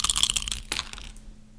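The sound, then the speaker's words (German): Dice rolled for a game clatter in a quick burst of many sharp little clicks and clacks, which thin out and fade to quiet after about a second. “Guck, jetzt habe ich wieder meinen richtigen Würfel, der auch tut. Ich würfel jetzt”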